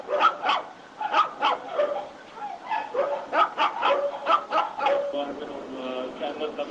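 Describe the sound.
Dogs barking at an animal care centre that mostly houses dogs, many sharp barks repeating in a quick, uneven rhythm.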